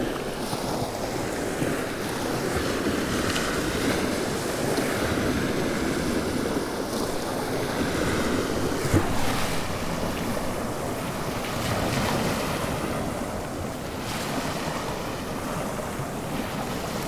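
Sea waves and wind on the coast at Hampstead Ledge, heard as a continuous broad rush of surf under steady buffeting wind noise, with gentle swells in loudness throughout and no voices.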